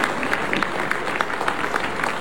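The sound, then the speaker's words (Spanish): Audience applause for a woman president at a public event, a dense steady wash of clapping hands with scattered sharper claps, sustained and fairly loud throughout with no voices over it. “un aplauso desde aquí, un saludo para la presidenta.”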